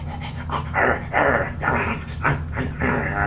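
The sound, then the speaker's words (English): Dog in a dumpster making a series of loud, breathy panting bursts in an uneven rhythm over a low rumbling undertone. “featuring a baby crying, a dog in a dumpster”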